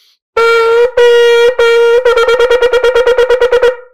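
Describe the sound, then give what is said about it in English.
Shofar blowing a shevarim-teruah sequence: three sustained broken blasts, then a rapid run of many short staccato notes, loud, bright and held at one steady pitch until a quick fade. “So your shvarim trua is going to sound like this.”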